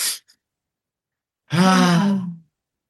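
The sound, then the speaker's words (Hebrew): A deep breath taken during a guided breathing exercise: a short breathy rush at the start, then after a pause one long, voiced sigh of breath lasting about a second, fairly loud and alone. “אני שואף שלוש פעם, אתם יכולים לעשות את זה יחד איתנו, אם אתם שומעים את זה עכשיו, שאיפה שלוש פעמים”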